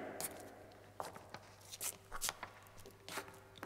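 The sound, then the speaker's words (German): Faint footsteps: a few irregular, soft scuffing steps on a gritty surface, spaced unevenly over a low background hum. “Ist da jemand? Himmel, das sind doch Schritte.”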